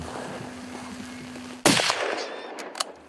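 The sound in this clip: A hunting rifle fires once at a wild boar in the mountains of New Zealand. After a quiet stretch, the single loud, sharp crack breaks out abruptly and trails off in a decaying tail, followed by a couple of faint clicks.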